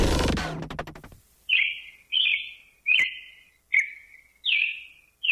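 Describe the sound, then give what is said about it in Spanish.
Six sharp, high calls of a hepatic tanager (Piranga flava), each short and bright, spaced about three-quarters of a second apart after a brief burst of other sound fades at the start. “La piranga encinera, piranga flava. La piranga encinera es una especie de ave paseriforme de la familia Cardenalidae.”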